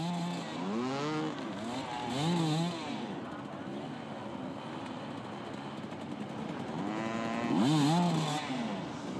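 Motorcycle engine revving hard while climbing a steep hill, the clutch being pushed to its limit; a steady, strained drone with a couple of louder rising and falling revs.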